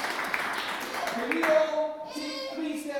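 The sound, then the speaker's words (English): A group of children gives a short round of applause. Scattered hand claps run for about a second before fading, and then a voice begins talking. “I think we should give them all a big round of applause.”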